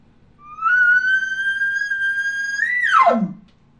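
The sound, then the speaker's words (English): Elk location bugle made with a call: a whistled note climbs to a long, sustained high pitch, then drops off abruptly into a short, lower, rough grunt at the end, with no other sounds. “get that high-pitched sound, drop it off at the end, then you have a location bugle. It sounds like this.”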